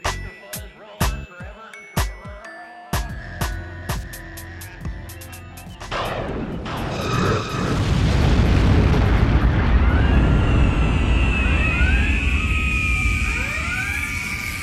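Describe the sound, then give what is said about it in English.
Explosions and impacts hit a spaceship under attack: a rapid series of sharp booms gives way to a sustained, loud roaring rumble crossed by sweeping whistling tones. “By the sack of Sarek, we've been attacked in the middle of an episode. Shields up!”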